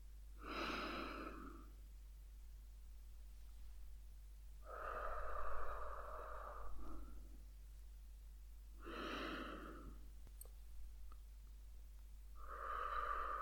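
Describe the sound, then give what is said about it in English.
A person breathes slowly and audibly during a guided relaxation exercise, with a few long, soft breaths spaced several seconds apart over a constant low hum. “Want to hear that breath out,”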